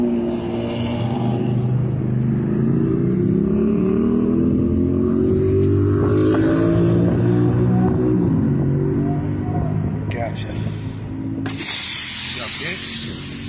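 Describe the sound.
A car engine rumbling as the vehicle pulls up at a gas station: a steady low hum whose tone drifts up and then settles, with a brief hiss near the end.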